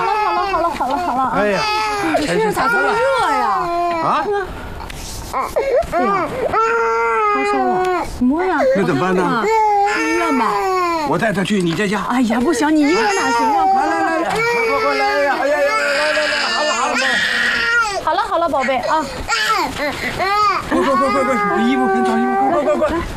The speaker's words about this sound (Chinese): 哎呦，这是什么？ 一直哭啊！你怎么哄也不行。